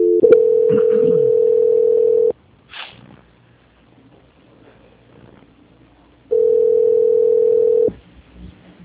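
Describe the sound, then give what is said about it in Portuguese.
Flat telephone tones sound during a call transfer: one long steady beep of about two seconds, then a quiet stretch with faint noise, then a second tone at the same pitch lasting a little under two seconds. “Transferindo ligação.”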